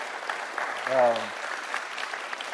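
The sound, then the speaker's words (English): Steady applause from an audience clapping for their pastor: an even patter of many hands that runs through the whole clip, with a brief voice rising over it near the middle. “So would you clap your hands for Jeff and Katie as they're just enjoying themselves?”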